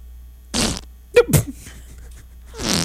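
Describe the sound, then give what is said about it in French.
Raspy whoopee cushion fart noises, a few short blatting bursts spread across the moment, loud and rough with nothing else behind them. “Oh non, mais ça, c'est un coussin pétard. Oui, c'est mais. Pas un vrai pète.”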